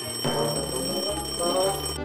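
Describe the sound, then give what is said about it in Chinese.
An alarm clock ringing, a bright continuous metallic ring sustained loudly and evenly for about two seconds. “闹钟也是钟啊，听了钟声就会把你的善性唤醒”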